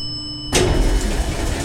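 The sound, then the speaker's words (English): Elevator machinery sounds as the car rises up the Eiffel Tower toward the second level, 400 feet up. A quiet electrical hum gives way abruptly to a steady, broad mechanical roar with no voices. “Second level, 400 feet up. You know, if you wanted to, Trusty, instead of riding the elevator, you could have climbed about 750 steps to get here.”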